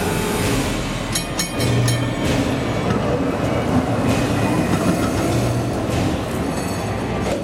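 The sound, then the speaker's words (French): Rumble of a London Underground train at Whitechapel station, a loud, steady roar with rattling wheels and faint metallic squeals throughout. “Terminus Whitechapel, la station de métro qui a ouvert en 1884, est censée relier l'East End à la City. C'est l'époque où coexistent les cabs et le tube, les derniers fiacres et le premier métro.”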